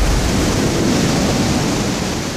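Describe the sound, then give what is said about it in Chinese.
The roar of a large waterfall in Uganda, a loud, dense, unbroken rush of water that holds steady throughout and has no voices over it. “这里是乌干达的穆奇森瀑布”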